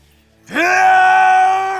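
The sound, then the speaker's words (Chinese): A man gives a single drawn-out groaning roar as he charges forward in a fight. The voice swells quickly, holds a steady, strained tone for over a second, then cuts off. “肯塔低吼一声冲上前，被波波叶直接捏住喉咙。”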